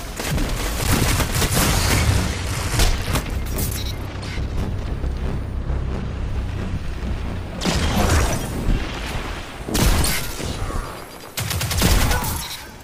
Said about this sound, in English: Took me three shots, but I got the kill.